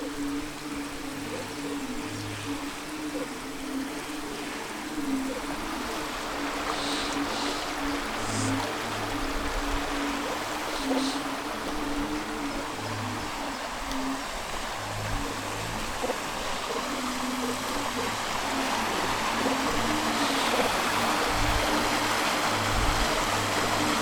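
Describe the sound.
Water rushes and gurgles steadily through a blockage that farmers have broken down with chainsaws, a continuous stream-like flow with no pauses.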